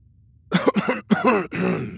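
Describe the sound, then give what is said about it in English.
A man clears his throat in a few rough, voiced bursts, fairly loud, with no talk around them. “cleared his throat”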